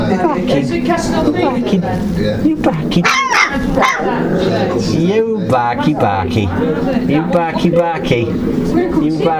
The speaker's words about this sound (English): They're all barking at me, it's funny.